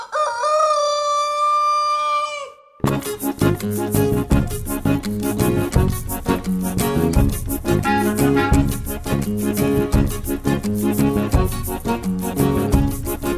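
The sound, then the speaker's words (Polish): A single long, drawn-out rooster crow rings out alone at the start, then loud, busy rhythmic music cuts in and fills the rest. “Odtąd z rzadka w Lututowie o kogutach ktoś opowie: były sobie dwa koguty kałakuty.”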